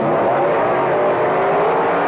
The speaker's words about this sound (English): The wild funny cars are coming. It's the grand opening funny car championship meet. Strong nitromethane burning Dodges from Detroit.